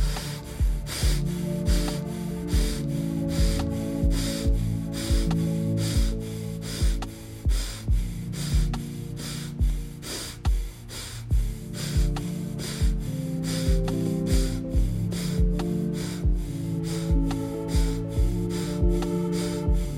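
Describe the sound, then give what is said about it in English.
Rapid breathing in and out through the nose during a 30-second breathing drill: many quick, sharp sniffing breaths in a steady, even pulse throughout, over continuous background music. “Inhale nose, exhale nose for 30 seconds”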